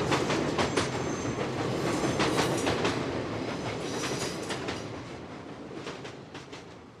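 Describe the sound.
A train arriving at its final station: a steady rumble with a rhythmic clickety-clack of wheels on rails, slowly easing in loudness.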